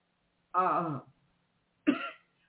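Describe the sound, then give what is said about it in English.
Two coughs brought on by burning incense. The first is longer and voiced, and after a short pause comes a second, briefer one. There is no talk between them. “I have some incense burning that's making me cough.”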